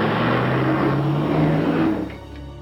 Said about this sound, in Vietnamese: Hắn đột nhiên nhìn thấy một chiếc xe hơi chính là đang hướng cổng trường mà phóng như bay đến.